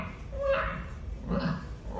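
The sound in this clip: A large, sturdy dog raised by cats trying to meow, giving two short, strained whining calls with a pause between them.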